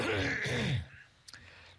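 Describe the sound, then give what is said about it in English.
A man's quick cough, closer to a throat clearing: one voiced, rasping burst under a second long, then a faint click over quiet background. “Hang on, I just got to have a quick cough.”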